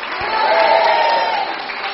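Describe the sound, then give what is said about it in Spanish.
A church audience applauds in a steady, dense patter of clapping that holds at an even, fairly loud level for about two seconds. “Aplauda para el Señor.”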